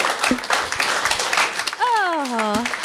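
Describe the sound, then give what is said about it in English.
An audience gives a standing ovation at a live quiz show, dense clapping throughout, with voices and a drawn-out vocal cry riding over the applause. “Getting a standing ovation from the back there.”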